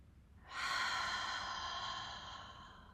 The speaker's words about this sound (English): Take a deep breath, inhale through the nose. And then exhale, open the mouth, completely let go.